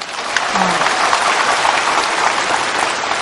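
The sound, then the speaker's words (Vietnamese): An audience claps at a monk's talk, producing a loud, dense, steady wash of applause that continues unbroken from start to finish. “Vỗ tay lớn hơn người mù chứ nào.”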